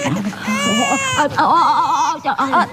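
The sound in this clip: An infant cries in loud, high, sustained wails that break into shorter sobbing whimpers toward the end, with no clear talk.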